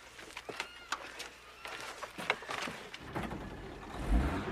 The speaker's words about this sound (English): Saul and the other volunteers get into the truck. The truck drives away from base camp.